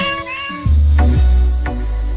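A played recording of a pop song sung by cats: sliding, harmonic meowing notes strung into a melody over a loud, deep bass beat.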